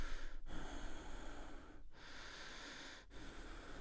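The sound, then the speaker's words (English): Rapid, heavy breathing of someone hyperventilating while sitting at rest: loud, noisy rushes of air run almost without break, with only a few very short pauses between breaths. “if you're just sitting around and your breathing is like this,”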